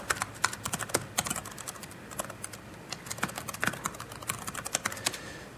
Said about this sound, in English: and if I could type, remarkably I'm actually paid to type, but it doesn't seem to do me much good.